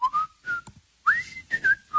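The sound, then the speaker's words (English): A person whistles a familiar theme-song tune while drinking coffee: a string of clear, high, breathy notes separated by short gaps, with one note sliding upward before the melody continues. “not to annoy people with my whistling here, but let me see if I remember.”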